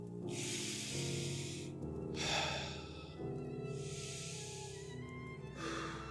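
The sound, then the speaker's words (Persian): Deep breathing closes a meditation session: a few slow, airy inhales and exhales rise and fade over soft, sustained droning music, all quiet and unhurried. “حالا با چند تا دم و بازدم عمیق این مدیتیشنمون رو به پایان میرسونیم.”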